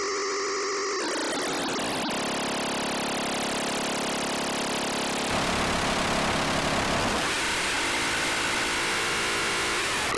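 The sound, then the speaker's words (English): Synthesizer tone with its modulation oscillator cranked up to a high rate, a loud, harsh, buzzing and warbling texture that shifts timbre abruptly several times. “Now we're going to crank up the modulation oscillator. Yeah, we'll turn it to high rate.”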